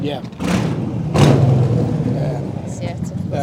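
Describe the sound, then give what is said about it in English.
A vehicle drives past outside and pulls in to park, its low engine rumble with a couple of dull thumps running beneath people talking. “Sorry, Evil Knievel just drove past. now he's parking it, so there's going to be more noise.”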